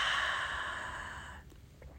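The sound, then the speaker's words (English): A long, deep exhale through the mouth during a yoga breathing exercise, a soft airy rush that fades out over about a second and a half, then near silence with faint small sounds. “Raise your arms over your head. Inhale. Bring your hands to heart center. Exhale.”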